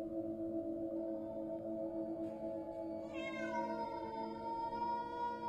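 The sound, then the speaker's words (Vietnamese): A black cat meows, drawn-out and wavering, in the second half over a steady droning background tone. “Nó nhìn chăm chăm vào cái thây đang đứng sừng sững của Công, kêu lên vài tiếng.”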